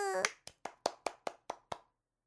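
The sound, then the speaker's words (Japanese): Hand clapping rings out as eight sharp, evenly spaced claps in a steady rhythm, each loud and crisp, following a brief voice at the start. “わあ、よくできたね。イエーイ、拍手。”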